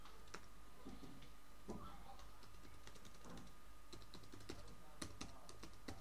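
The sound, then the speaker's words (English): Typing on a computer keyboard: faint, irregular key clicks tapped in quick bursts over a low steady hum, with a few sharper, louder keystrokes standing out. “So yeah, I'm just going to type it in.”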